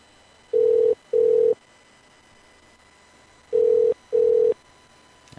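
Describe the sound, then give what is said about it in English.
A telephone ring tone sounds over the line as two double rings. Each ring is a pair of short, steady, mid-pitched electronic tones, and a long silent gap separates the two rings. “Answer the damn phone. Damn it.”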